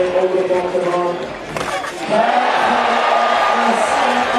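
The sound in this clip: Crowd cheering for a skateboarder's trick at a professional skateboarding contest; a voice is heard at first, then the cheering and whoops swell into a loud, steady roar that holds to the end.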